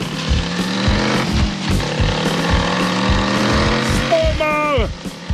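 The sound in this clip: Engine of a vehicle starting off and driving fast toward a bend, a loud steady rumbling drone with rapid pulsing throughout, ending in a brief high screeching sweep that falls in pitch.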